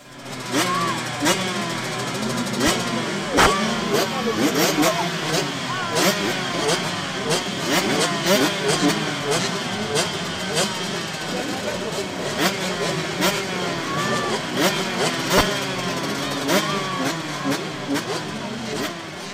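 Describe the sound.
Motocross motorcycles race and rev at a lively outdoor motocross event at Castelnau with jumps and flying dirt. Many overlapping engines whine and howl, their pitches sweeping up and down constantly, with sharp sputters and bursts scattered throughout at a steady high loudness.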